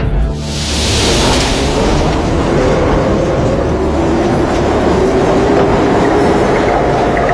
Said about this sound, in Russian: Поезд закрывает двери. Вода ручьем бежит по стене. Состав отправляется.